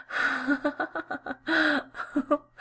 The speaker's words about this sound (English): I like watching you gasp for breath.